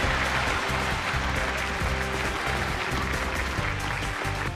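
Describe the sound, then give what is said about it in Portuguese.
Applause from an audience at a comedy awards scene, a dense and steady wash of clapping that holds at an even level for the whole stretch without any clear break. “Pausa para aplausos.”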